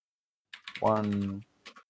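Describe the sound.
Typing on a computer keyboard gives a few sharp, quick key clicks at the start and end, separated by a sustained voiced tone.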